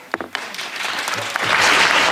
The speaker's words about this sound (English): And a nice applause line at the end. Always, always good.